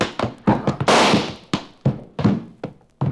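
A pistol gunshot in a radio drama: one loud, sharp blast with a decaying rush of noise, set among several lighter thumps and knocks before and after.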